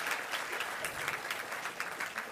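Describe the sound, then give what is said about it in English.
An audience applauding, a steady wash of many hands clapping at a fairly low level throughout, with no voices standing out. “Round of applause, please, folks.”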